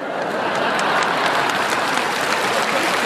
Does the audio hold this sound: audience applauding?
yes